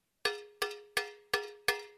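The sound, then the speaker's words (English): A cowbell is struck five times at an even, steady pace. Each hit gives a bright, clanking metallic attack, then a short ringing tone that fades before the next strike. It is fairly quiet and heard alone. “But I love to think about the cymbal because one of the third cousins of the cymbal is the cowbell, right?”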